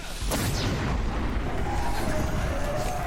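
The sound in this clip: A grenade launcher explosion in a video game gives a heavy, sustained booming rumble that fills the whole three seconds at a steady, loud level.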